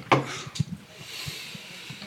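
Rubbing creaks and low knocks come from a loose microphone stand being tightened. A few dull thuds are scattered through a faint, rustling background, with no voices.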